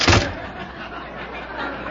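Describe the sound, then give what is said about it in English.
A door bursting open in a blast hits as a sudden loud burst, then a steady rushing noise continues to the end. “where were we before that blast blew the door open there?”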